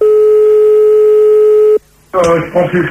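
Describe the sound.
A steady telephone line tone sounds during a call-back to a radio listener, holding one even pitch for under two seconds before it cuts off. After a short gap, voices talk.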